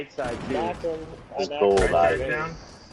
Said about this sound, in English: The aim. One bullet. And on the roof. Boom! I have this. One bullet, baby.